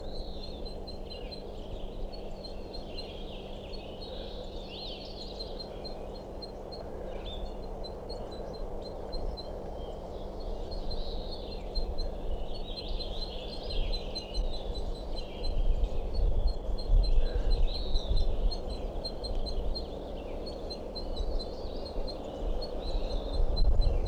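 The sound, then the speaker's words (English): Calling of a female crossbill on a nest, heard from under the tree: many thin, high chip notes repeat irregularly over a steady low background hum, faint throughout. “I'm underneath that tree I think a crossbill is nesting in, and this calling from I think a female crossbill somewhere on a nest continues, and this is a sample.”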